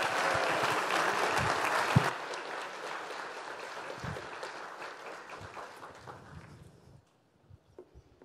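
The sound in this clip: An audience applauds to welcome a speaker at a church gathering on thinking biblically about voting. Dense, even clapping holds for several seconds, gradually thins and fades, and a few scattered claps linger at the end.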